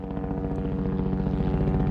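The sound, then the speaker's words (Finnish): Low-flying helicopter used for aerial tree trimming along power lines, a steady low droning rumble with a fast pulsing beat, even in loudness throughout and with no voices. “Helikopteri lentää matalalla ja aiheuttaa jonkin verran melua.”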